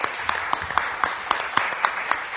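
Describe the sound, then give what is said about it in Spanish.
Audience applause at a conference session, lighter scattered clapping carried by a steady rhythmic pulse of louder claps landing about four times per second. “Un aplauso para esta colaboración.”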